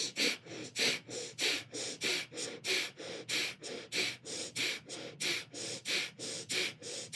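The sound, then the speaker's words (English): Breath of fire, a yoga breathing exercise: rapid breaths pumped through the nose and driven by the navel. Many sharp, evenly spaced puffs follow a steady, quick rhythm of about three per second, with no talk. “and you're going to breathe the breath of fire through your nose, pumping your navel. It's going to sound like this.”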